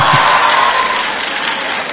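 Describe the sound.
Applause breaks out in response to a lecturer's remark, a dense, loud wash of many hands clapping that holds steady for the whole two seconds, with no clear voices over it.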